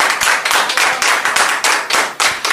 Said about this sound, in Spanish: Un fuerte aplauso para todos ustedes.